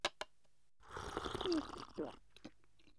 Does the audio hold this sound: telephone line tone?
no